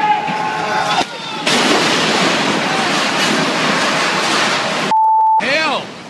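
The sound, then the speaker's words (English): A burning 45-metre construction crane collapsing onto a university building site produces a loud, sustained, noisy roar lasting several seconds. Shouting voices come before it, and a short electronic beep and a voice follow. “dramatic scenes were captured by onlookers and posted on YouTube. The 45-metre-high crane caught fire and then collapsed onto a construction site at the University of Technology.”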